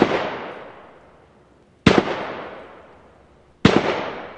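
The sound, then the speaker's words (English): Three loud, sharp bangs as gunshots strike confiscated gas cylinders of anhydrous ammonia on an outdoor police firing range. Each blast hits suddenly and then fades slowly over about two seconds before the next one follows. “Out back on the firing range, officers are shooting gas cylinders containing anhydrous ammonia, confiscated in recent meth lab raids.”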